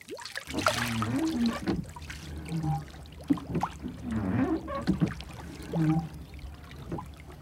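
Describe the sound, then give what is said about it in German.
A boat is hauled out from under a pine tree, with soft knocks and scrapes mixed with trickling, sloshing water in uneven bursts, quiet overall. “Farn bereits angekleidet und damit beschäftigt, das Boot unter der Kiefer hervorzuziehen.”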